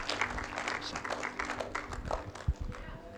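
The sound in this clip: A church audience applauds to welcome a guest speaker at a Sunday night service, with steady, dense clapping throughout and a few louder individual claps.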